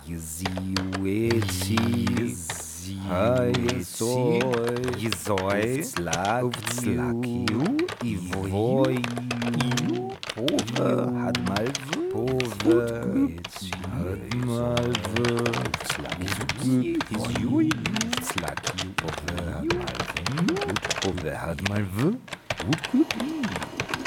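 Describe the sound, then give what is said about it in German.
Computer keyboard typing in the dark, a dense, steady stream of rapid key clicks running throughout beneath continuous vocals. “Ich tippe im Dunkeln. Ich tippe im Dunkeln.”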